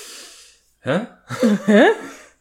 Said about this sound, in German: Ich atme geräuschvoll, sei ruhig.